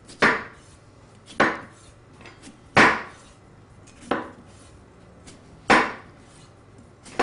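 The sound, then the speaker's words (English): Sharp chef's knife slicing through potatoes: six crisp, evenly spaced chops, each a quick bright knock on the board, with faint quiet between strokes and no talk. “And you want a nice, good chef's knife that is nice and sharp to do this.”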